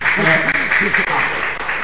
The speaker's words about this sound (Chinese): 那个部长继续鼓掌。